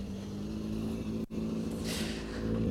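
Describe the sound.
A rally car engine rumbles at a steady low pitch as the car rolls downhill toward the commentators at a rally event, with a brief dip in the noise and no voices.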